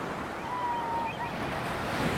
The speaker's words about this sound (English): This is St. Pete Beach in Florida. It's just one part of the thousands of miles of coastline in the state.